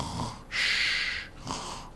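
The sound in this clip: A voice imitates snoring with two rasping, breathy snore sounds, a longer loud one followed by a shorter, softer one, with no other talk.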